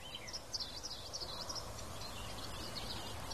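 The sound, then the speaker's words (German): Faint birdsong outdoors on a windy day, thin high chirps and twitters clustered in the first half over a steady low rush of wind. “Also es ist ein bisschen windig, aber ich hoffe, man kann trotzdem den Vogelgeräuschen lauschen.”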